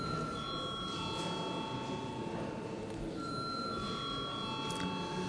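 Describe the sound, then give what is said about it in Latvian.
A bell rings in a parliament chamber to call members to a vote: faint, sustained ringing tones sound over a low steady background hum. “Paldies, lūdzu zvanu.”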